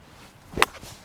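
A single golf shot with a 7 iron, swung gently off the back foot and struck slightly unclean: one short, sharp swish-and-strike that rises abruptly and dies away at once, with nothing else heard.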